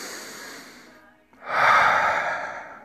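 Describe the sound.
A person takes a deep breath, heard as two long, airy breaths split by a short pause, the second louder and fuller than the first.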